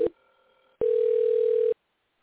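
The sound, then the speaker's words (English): A telephone ringback tone on an outgoing call: a brief electronic blip, a short silence, then one steady, mid-pitched ring tone of about a second before the line goes quiet. “let's dial him up. It's dialing.”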